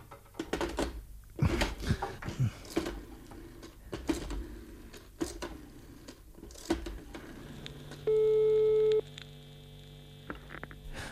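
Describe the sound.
A telephone tone sounds after a call is cut off: one steady, buzzy tone lasting about a second. Scattered clicks and knocks on the line come before it, and a low hum runs underneath.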